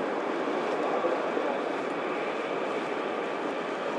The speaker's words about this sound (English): that was the sound of the 5 minutes past train going, I think.